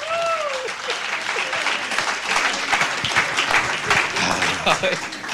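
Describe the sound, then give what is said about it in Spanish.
Congregation applauding at a Spanish-language church service, dense continuous clapping and crowd noise throughout, with a voice audible at the start. “Denle un aplauso al Señor, gloria a Dios.”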